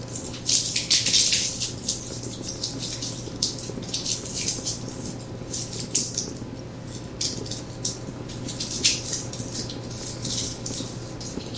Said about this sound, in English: I have the pot on medium-low, and we're going to start by cooking some garlic and some red pepper flakes in some olive oil.